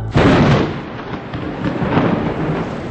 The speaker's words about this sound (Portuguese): Mais um dia deu uma trovoada